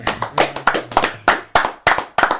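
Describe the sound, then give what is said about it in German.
Pre-recorded applause triggered by a button: loud, separate hand claps in an uneven string, each a sharp slap, over a faint low hum. “Jetzt erklären wir nicht, dass es eingespielt war, oder? dieser Applaus. Hier haben wir so einen Knopf, da drücken wir drauf und dann passiert folgendes.”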